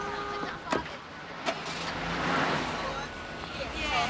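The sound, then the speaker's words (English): A car pulls away after a couple of sharp clunks, followed by a broad swell of engine and road noise that rises and lingers at a moderate level. “Adele walks to her car, gets in, and drives off.”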